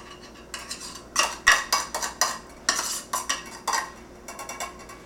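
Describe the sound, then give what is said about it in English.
A spoon scrapes and clinks against a metal can while drained canned clams are scooped out: many short metallic scrapes and taps in irregular bursts, fairly loud, with no talk. “And then just scoop all of the clams without juice.”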